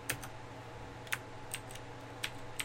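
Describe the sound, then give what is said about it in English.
Typing on a computer keyboard while entering music details such as genre, artist and album by hand: a handful of soft, sparse key clicks at irregular intervals over a quiet, low hum. “I have to type it all in myself.”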